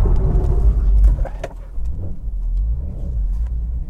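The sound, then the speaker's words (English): A car drifting on a slippery surface, its engine revving and rumbling with low, throbbing surges and a few rough bursts, heard without talk. “We're going to do a little bit of a drift.”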